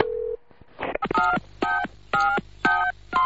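Touch-tone phone dialing begins with a short steady beep, then a brief rustle, followed by several evenly spaced keypad tones, each a crisp two-tone chirp.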